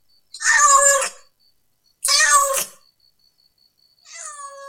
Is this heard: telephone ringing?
no